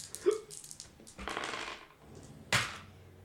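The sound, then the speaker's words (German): Dice for a tabletop role-playing game rattle and tumble across a surface in a faint clicking burst, followed by a single sharper clack, all quiet and without talk. “Yo, auf was müssen wir würfeln? Ausweichen.”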